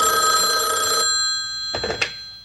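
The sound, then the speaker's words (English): An office telephone at a radio station rings in one sustained electronic burst over a low hum, followed by a few brief knocks. “The phone rings. She looks at it for a moment, then picks it up.”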